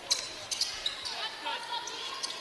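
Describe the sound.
A basketball is dribbled on a court during a women's college game, a few sharp bounces at uneven intervals over crowd noise and voices.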